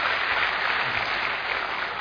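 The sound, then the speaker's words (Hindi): Audience applause at a talk on peace and happiness: dense, steady clapping from a crowd, loud and continuous for the whole two seconds with no voices over it. “एक बार मैं चाहूंगा कि आप अपने लिए ही जोरदार ताली बजा लें,”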